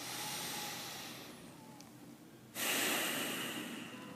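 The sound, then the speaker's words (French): A deep breath drawn in through the nose, then breathed out through the nose like a sigh. A long, soft airy inhale is followed by a brief pause and a louder, rushing exhale. “je vous invite à prendre une série de trois respirations profondes. Une inspire avec le nez. Et une expiration un peu comme un soupir, également avec le nez.”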